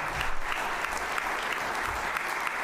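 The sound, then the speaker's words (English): An audience applauding a pastor with loud, steady clapping, a dense continuous patter that lasts throughout with no voices over it. “Y'all need to give Pastor Hoover applause.”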